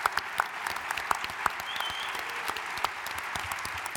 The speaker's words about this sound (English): Please give a round of applause for Anders and Rolf, who put this whole thing together. And they're going to come on stage now.